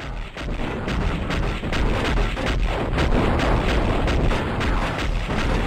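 Rapid gunfire from a video game, with dense, continuous bursts of loud, sharp shots forming an unbroken rattling barrage.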